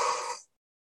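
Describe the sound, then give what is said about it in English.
A single short exhale through the mouth during a guided breathing exercise, a soft, breathy whoosh lasting under half a second before cutting to silence. “Exhale through your mouth, releasing everything that no longer serves you. And one more time, inhaling and letting it all go.”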